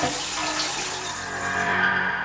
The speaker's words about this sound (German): Sekunden darauf waren wir nass. Sprinkleranlage, klar.